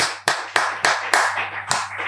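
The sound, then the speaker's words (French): Rhythmic clapping acclaiming the name of Jesus, sharp even claps in a steady beat, loud and without talk. “Acclamons pour le nom Seigneur Jésus.”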